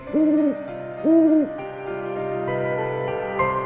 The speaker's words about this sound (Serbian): Na drvetu je sedelo desetak zadovoljnih sova ušara. Sova ušara je najveća evropska sova.